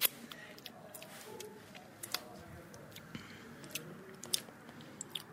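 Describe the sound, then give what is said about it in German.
Faint chewing and mouth sounds as someone tastes fish protein powder, a white, flour-like powder, with soft irregular clicks and smacks over a quiet background. “Es sieht aus wie Mehl. Es ist ein Proteinpulver. Kann ich es probieren?”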